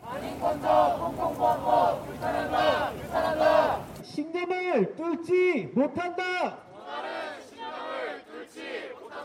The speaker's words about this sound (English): What you just heard is a group of protesters in Seoul, South Korea, encouraging a boycott of Disney's live-action remake of its 1998 classic Mulan